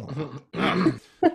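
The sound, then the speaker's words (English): Someone clears their throat in three rough, breathy bursts, with short pauses between them, and no other voice is heard. “Yeah, sorry. Just clearing my throat.”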